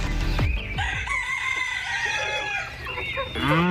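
A rooster crows loudly among farm animals on a village pasture in the northern countryside, a long wavering call with clucking around it and a rising squawk at the end.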